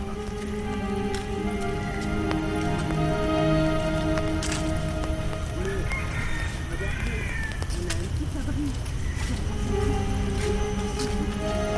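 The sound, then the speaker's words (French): Rain patters through jungle canopy in a hilltop park in Singapore late in the morning, a steady, soft wash of drops with thicker drops falling and faint tonal chirps running beneath. “Vient de me dire Ariane, les gouttes sont de plus en plus épaisses”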